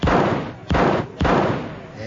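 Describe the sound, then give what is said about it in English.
Gunshots at a Coney Island shooting gallery, fired at targets shaped like ducks. Three loud booming shots come in quick succession, each decaying before the next. “Don't shoot. Why not? Wait till I get in front of you. When you're shooting, that's the safest place to stand. Now blaze away.”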